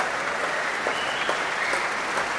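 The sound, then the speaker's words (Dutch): A concert audience applauds the musicians of an orchestra, an even, steady patter of many hands clapping at a moderate level with no pauses. “Een groot applaus nu ook voor al die verschillende muzici van het orkest.”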